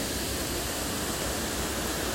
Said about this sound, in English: I think it's just lovely to revel in the power of the water that's crashing down around me,